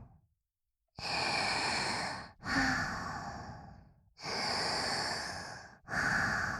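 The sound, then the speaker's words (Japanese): Slow, deep breathing, four long airy breaths in a steady unhurried rhythm, the last one cut off, with no talking. “深呼吸しよう。ゆっくりと。”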